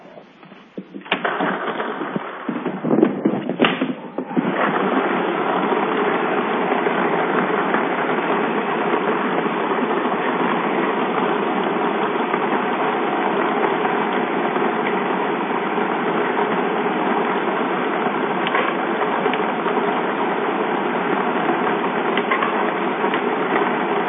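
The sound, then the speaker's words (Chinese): Mechanical whirring and rattling of a lottery ball drawing machine at a welfare lottery 3D draw: a few seconds of irregular clatter settle into a loud, constant churning drone that runs to the end. “好的，马上为您启动摇奖机。”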